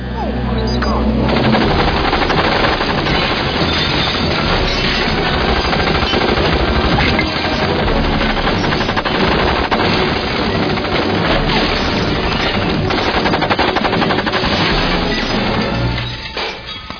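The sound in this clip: Machine gun fire from breast-mounted guns in a comedy film scene forms a dense, loud, continuous rattling barrage with crashing impacts, sustained almost unbroken for the whole stretch.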